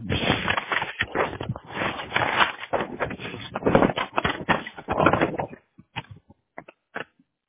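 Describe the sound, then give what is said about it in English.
Keys clatter as a card number is typed on a keyboard: a dense, fast run of many thin, muffled clicks, then a few isolated taps after a short pause. “I'll type it in just to be safe.”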